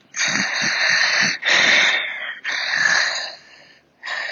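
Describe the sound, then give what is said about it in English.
A person imitates struggling, unhealthy heavy breathing with four long, wheezy, rasping breaths, each loud and strained with brief pauses between them. “The breathing sounded struggled or something. That it just was, it just didn't sound the way you would think a healthy person's heavy breathing would sound, kind of like,”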